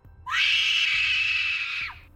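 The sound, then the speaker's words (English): A queen's long, high-pitched scream, a woman's cry that swoops up sharply at the start, holds piercing and loud for about a second and a half, then drops away, heard alone. “She peered at the still waters and screamed.”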